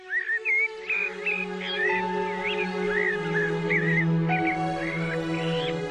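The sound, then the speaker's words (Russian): Rooks cawing and starlings singing in a garden: a continuous stream of chirping, warbling calls over a steady low drone. “Сквозь двойные рамы слышно было, как шумели в саду грачи и пели скворцы.”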